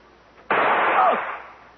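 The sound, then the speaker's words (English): A gunshot sound effect in a radio mystery drama: one sharp, loud crack that bursts in suddenly, then rings out in a broad, decaying wash for about a second, with no voices over it. “Go ahead, Hunter. Pull the trigger.”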